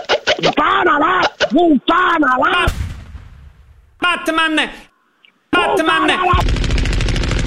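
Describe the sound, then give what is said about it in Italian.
Gunfire sound effects break through loud, excited voices: one rough blast comes partway through, and a dense rattling volley comes near the end. “ti sparo nelle gambe, gambe bastardo”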